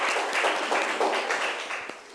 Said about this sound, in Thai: โอเคค่ะปรบมือให้เพื่อนจากกลุ่มที่5หน่อยนะคะ